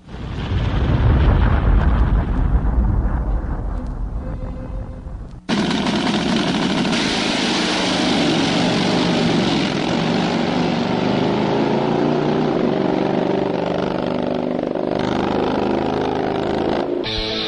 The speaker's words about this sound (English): It's time to go drag racing! 200 plus miles per hour. And it is drag racing on two wheels.